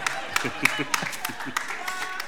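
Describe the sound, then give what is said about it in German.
Sparse applause from a few people in an audience, with a handful of light claps at a loose, regular pace while people talk over them. “Kein Mitleidsapplaus bitte, kein Mitleidsapplaus.”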